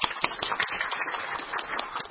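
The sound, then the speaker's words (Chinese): Applause at a Wong Tai Sin District Council meeting welcomes a newly appointed district officer from the Food and Environmental Hygiene Department: many quick, overlapping claps, lively and uneven, for about two seconds. “咁大家掌声欢迎。”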